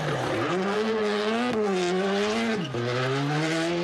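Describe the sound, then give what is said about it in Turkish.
A rally car engine on a Turkish Rally Championship stage in Cappadocia, a loud, sustained rasping drone whose pitch climbs, dips at gear changes and climbs again, with no voices. “Kapadokya'nın eşsiz manzarasında yapılan rallide pilotlar birinci olabilmek için direksiyona geçti.”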